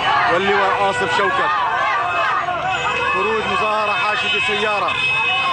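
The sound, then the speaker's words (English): A large crowd of Syrians in Idlib celebrating, many overlapping voices shouting and calling out at once in a loud, dense, unbroken din throughout. “Here's the sound of Syrian opposition recorded Syrians in Idlib yesterday celebrating those deaths within Assad's inner circle.”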